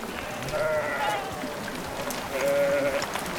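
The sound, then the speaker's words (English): Sheep bleating as a flock is driven down a mountain toward a river. A few wavering, nasal bleats rise over a steady rustling background, with a pause between the earlier calls and a longer one later. “The two of them drive the sheep down the mountain towards the river.”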